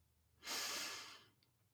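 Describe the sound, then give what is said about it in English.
A single deep breath drawn in during a guided breathing exercise: one soft, airy breath that swells and fades over under a second, faint and alone. “So we breathe in”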